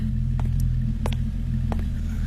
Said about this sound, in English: You left your engine running.